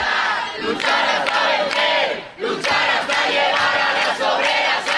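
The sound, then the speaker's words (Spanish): A large crowd in the streets of Madrid chanting loudly in rhythmic, repeated bursts, with a brief dip in volume near the middle before the chant resumes. “El sonido ahora mismo en las calles de Madrid.”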